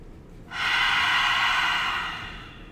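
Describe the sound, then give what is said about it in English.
A single long, deep breath in during a guided breathing exercise, a steady airy rush that swells quickly, holds, and fades slowly, heard alone without talk. “taking three big deep breaths in.”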